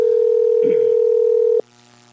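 A telephone dial tone sounds as a steady, continuous mid-pitched hum while a call is placed, with a brief muffled rustle partway through. It then cuts off abruptly.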